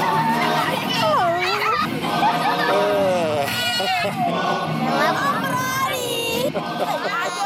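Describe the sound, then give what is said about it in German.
Excited children shouting a local Twi word for a white person, many high voices overlapping in a loud, continuous stream of calls. “Obroni, der aufgeregte Ruf der Kinder, wenn sie mich sehen und der mich hier ständig begleitet.”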